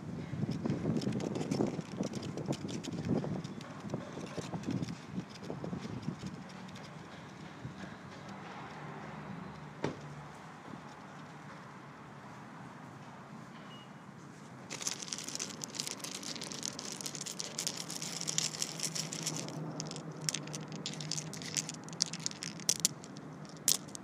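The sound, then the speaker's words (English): Leaves rustle in the wind as a soft, continuous hiss, turning brighter and more crackly in gustier stretches later on, with a few sharp ticks. “The sounds of leaves in the wind.”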